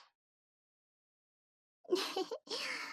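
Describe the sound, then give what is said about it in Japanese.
A nervous young woman takes a deep breath: two soft, breathy bursts of air come after a long stretch of silence, the first brief and the second longer and steady. “見られちゃいましたね。はい。深呼吸してました。”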